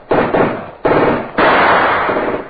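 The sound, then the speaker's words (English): Tommy gun fire in an old radio drama: several sharp, loud bursts of rapid machine-gun shots, each cracking in suddenly and then tailing off. The longest burst comes last. “Hassan, the machine gun you see, Mr. Knight. Against that, you have no chance. No? Oh, that takes care of Hassan and his Tommy gun.”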